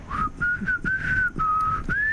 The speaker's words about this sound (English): It's hard to whistle into these mic socks we have on as well.